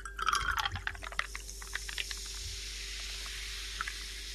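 Liquid is poured into a glass to top up a drink. A brief gurgling splash in the first second and a half trails off into faint, sparse trickles over a quiet background.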